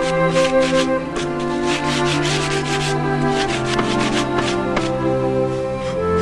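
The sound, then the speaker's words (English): Sanding block rubbed over the wooden boards of an old toy sled with metal runners, giving steady back-and-forth scratchy strokes in a regular rhythm, fairly loud and without voices. “works a sanding block over the toy's wooden boards”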